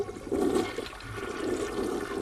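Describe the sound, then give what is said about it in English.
A toilet flushes as water rushes around the bowl and drains away, a loud, steady, continuous gurgling roar that holds for the whole stretch, with no voices. “I'm going to flush it and just show you.”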